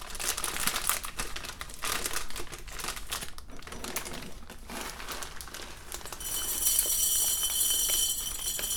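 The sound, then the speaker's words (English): Crinkling of a taped-up plastic bag of coffee being handled: a dense run of sharp crackles and crumpling rustles, fairly quiet, with a brighter, hissier crinkle toward the end and no talk. “have a glass jar for my coffee. And it'll only fit part of the bag, and I have it taped up good so it wouldn't get stale on me.”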